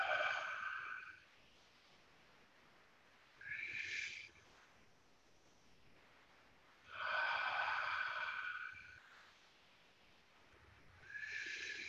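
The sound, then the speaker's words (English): Slow, deep breathing during meditation: four airy breaths, each lasting a second or two, separated by quiet pauses of a few seconds. The last breath is cut off at the end. No voices are heard. “Breathe in, breathe out.”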